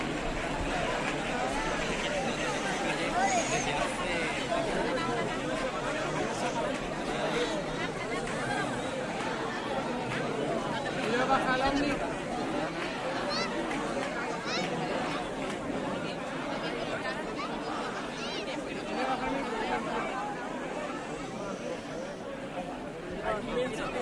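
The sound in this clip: Dense murmur of a large crowd gathered for the El Rocío procession entry in Huelva, many voices blending into a steady, even babble that runs throughout.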